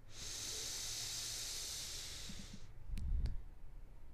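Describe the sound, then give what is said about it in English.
A long, steady inhale through the nose during a guided breathing exercise, an airy hiss lasting about two and a half seconds that cuts off abruptly into a quiet held breath with a couple of faint clicks. “Now for these next three breaths, we're going to hold our exhale at the top. We're going to inhale through our nose.”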